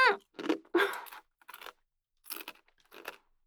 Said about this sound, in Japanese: めっちゃええ匂いやから食べますね。